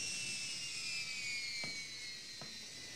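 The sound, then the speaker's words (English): A U.S. Air Force jet pulls up on a runway, its engine a faint, steady high whine that slowly drops in pitch, with two soft clicks near the end. “U.S. Air Force jet pulls up.”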